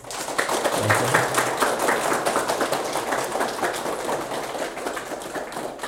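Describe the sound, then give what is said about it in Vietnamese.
An audience applauding at the close of a talk session, with many hands clapping in a dense, continuous patter that stays lively and even before easing slightly. “Không có gì hạnh phúc bằng được nghỉ, vỗ tay rơm rã làm sao á.”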